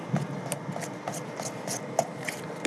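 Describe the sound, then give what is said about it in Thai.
Batter being stirred by hand in a bowl before an electric mixer is used, with sweetener already added: many repeated scraping, rubbing strokes at a steady rhythm, moderately loud, with no talking. “ขออนุญาตยังไม่ใช้เครื่องผสมนะครับเดี๋ยวขออนุญาตกวนสักนิดนึงให้เนื้อเขาเข้ากันก่อนนะครับ”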